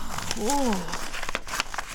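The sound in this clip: A paper letter crinkles and rustles as it is opened, soft crackles mixed in with someone talking.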